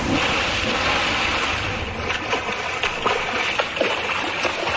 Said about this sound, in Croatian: Jo, ovi valovi, pa ljudi moji.